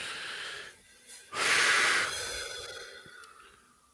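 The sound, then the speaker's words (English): Deep breaths taken during a calming exercise: a softer breath, then a louder, airy breath that trails off slowly into a long, fading exhale. “Let's just end by taking a couple of deep breaths, though.”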